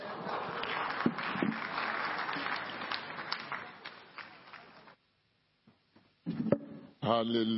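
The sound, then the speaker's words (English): Congregation clapping their hands together at a church service, a dense, steady wash of applause that runs for about five seconds and then drops away, followed by voices. “Jam your hands together for the Lord.”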